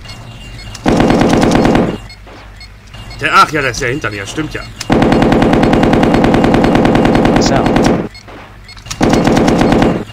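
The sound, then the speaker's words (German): Machine gun fire in a video game, loud sustained rattling bursts with a fast, even rhythm, separated by gaps where people talk. “Okay. Machine gun.”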